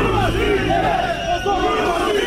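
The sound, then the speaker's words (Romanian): War veterans booing the head of parliament at the end of his speech at a commemoration rally: a dense, continuous mass of low, drawn-out jeering voices with some shouts rising above it, loud throughout. “Șeful legislativului, Adrian Candu, a fost huiduit la final de către combatanți, iar mitingul de comemorare s-a încheiat imediat după discursul lui.”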